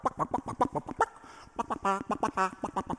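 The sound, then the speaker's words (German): Orchestral music depicting chicks dancing in their eggshells: quick, clipped staccato notes in a lively pecking rhythm, a brief hush, then bright sustained trilling tones before the rapid chirpy figures resume. “im fünften Satz, der Tanz der Küken in den Eierschalen. Ja, da hören wir dann dieses wirklich Markante, was alle kennen.”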